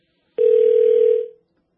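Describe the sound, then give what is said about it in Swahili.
A phone-in caller's dropped line leaves a single steady telephone tone. The mid-pitched tone sounds for about a second, fades briefly at its tail, and is followed by silence. “Tumempoteza Sinle kwenye line ya simu.”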